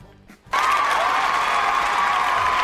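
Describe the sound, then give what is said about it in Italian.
An applause sound effect marks a correct answer in a phone-in quiz game, bursting in suddenly after a short quieter moment and then continuing as loud, sustained clapping. “È chiaro che l'applauso sottolinea la giustezza della risposta.”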